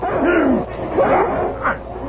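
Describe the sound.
A dog barks and yips while attacking a man and grabbing his arm. A few loud vocal bursts have whining, growling tones that slide up and down in pitch.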